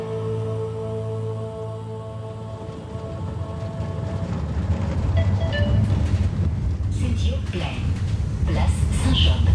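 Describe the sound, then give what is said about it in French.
A tram pulls into a stop in Saint-Job on a Monday market-day morning in mid-July. A steady electric hum with whining tones grows into a louder, continuous rumble and rattle, and higher squeals and screeches break through toward the end. “C'est un lundi matin que je descends du tram, lundi, jour de marché.”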